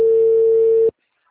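A telephone ringback tone heard while a call is being placed, a single steady mid-pitched electronic tone lasting just under a second before cutting off to silence.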